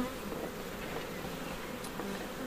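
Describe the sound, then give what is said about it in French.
Caucasian honey bees buzz around a honey production hive, a soft, continuous hum of many insects with faint, shifting tones drifting in and out. “Donc ici, c'est une ruche de production qui est destinée à faire du miel. Et c'est quoi comme espèce C'est euh, la caucasienne. C'est une abeille qui est rustique.”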